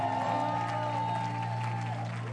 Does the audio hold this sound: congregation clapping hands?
yes